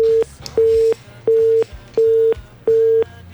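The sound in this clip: A telephone busy tone sounds after a call is disconnected: five steady, mid-pitched beeps of equal length, evenly spaced by short silences, over a low faint hum.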